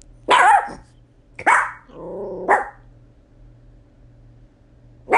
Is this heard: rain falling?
no

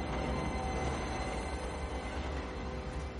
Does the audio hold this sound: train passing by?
yes

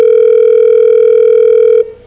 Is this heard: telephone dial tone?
yes

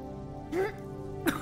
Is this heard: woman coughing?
yes

